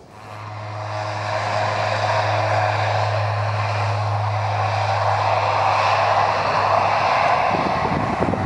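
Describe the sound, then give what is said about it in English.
Propeller airliner engine roar on a passenger flight from Leeds Bradford Airport, rising quickly at the start into a steady, loud drone with a low humming tone that drops away near the end while the broad rush continues. “Now, I'm flying today with the kind folks at Manx 2 from here at Leeds Bradford Airport, which is the nearest Manx 2 operate from for me. Now, I'd better get on board.”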